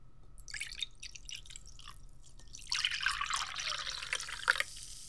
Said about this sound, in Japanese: 先生が開けてあげるわ。で、先生が君のを注いであげて。